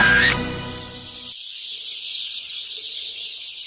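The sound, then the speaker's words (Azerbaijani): Sparrows chirp in the trees along a village road in early summer, when they are raising chicks: a dense, unbroken, high-pitched twittering that stays loud and steady throughout. “Sərçi cıvıltısından qulaq tutulur. Yayın ilk günləri sərçələrin bala çıxardan dövrüdür.”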